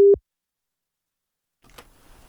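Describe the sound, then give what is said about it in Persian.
A single short, steady phone tone after a call is cut off. Silence follows, then faint low noise. “متاسفانه تماس ما با خانم سادات ظاهراً قطع شد”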